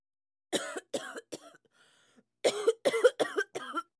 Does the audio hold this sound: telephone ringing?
no